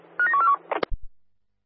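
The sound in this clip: Telephone keypad dialing tones play as a short, rapid string of beeps, followed by a few clicks and dull thumps that die away into silence.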